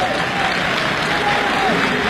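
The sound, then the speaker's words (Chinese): An audience applauds at a live comedy stage show, a steady wash of clapping at even loudness from start to finish, with a voice partly heard over it. “您蒙鼓掌，鼓掌他又不会弹吉他。”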